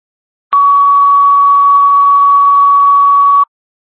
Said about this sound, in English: Alarm suppression tones for the Dudley Fire Department. WMGM 836, clear, $1,800.